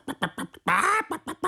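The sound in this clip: A voice imitating a hen clucking: a few short, rhythmic clucks, then a longer drawn-out squawk, followed by several more quick clucks.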